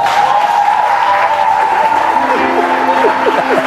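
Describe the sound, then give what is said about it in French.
A church audience stands to applaud and acclaim the Lord with loud, dense, continuous clapping, and voices join in over it during the latter half. “Si tu t'es senti béni, lève-toi et acclame fortement le Seigneur.”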